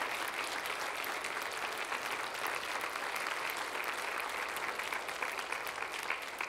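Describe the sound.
A church audience applauds a retired missionary couple with dense, even clapping that holds steady for the whole stretch without a pause.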